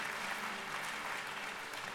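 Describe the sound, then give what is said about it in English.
A church audience claps in praise, a dense, steady wash of many hands applauding evenly from start to finish, fairly quiet and with no clear talk. “If you believe in this Jesus, give Him a great hand clap of praise.”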